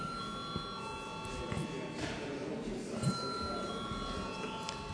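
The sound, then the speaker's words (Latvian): An electric bell rings steadily in a parliament chamber to call members to a vote. The continuous high tone is faint over a low background murmur. “Lūdzu, zvanu.”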